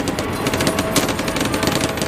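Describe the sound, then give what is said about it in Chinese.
Sustained machine-gun fire in a war video game battle at a river crossing, a loud, dense, unbroken rattle of rapid shots with no voices. “他们奋力前行，但由于机枪火力的压制，他们无法渡河，到处都是机枪的关卡。”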